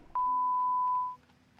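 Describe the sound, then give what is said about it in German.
A single steady answering machine beep, mid-pitched and lasting about one second, sounds clearly on its own against a quiet background. “Meldet euch gerne nach dem Piep.”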